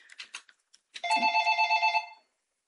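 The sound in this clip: A telephone rings with a single electronic, warbling trill that lasts just over a second. A few faint, short sounds come before it.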